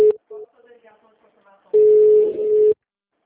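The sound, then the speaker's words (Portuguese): Telephone call transfer tones: two short steady beeps, then a faint stretch, then a long loud steady tone lasting about a second before cutting off. “Oi, eu vou transferir sua ligação, tá?”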